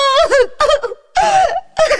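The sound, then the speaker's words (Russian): A woman cries in four loud, wavering, voiced sobbing bursts separated by short pauses. “Ну что с вами, сеньора, вы плачете? Правда же, совершенно напрасно.”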